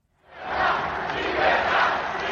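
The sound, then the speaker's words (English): A crowd cheers and roars at Javier Milei's presidential swearing-in in Buenos Aires. The loud, dense noise swells up from silence in the first moments and then holds steady throughout. “Javier Milei was sworn in to huge applause, chants of yes he can and freedom from those who voted for him.”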